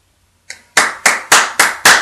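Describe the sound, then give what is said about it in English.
Applause from an audience after a short speech, heard as one soft clap and then five sharp, evenly spaced hand claps at a steady, moderate pace, with no voices. “applause. The audience just erupts in applause at what they had just heard.”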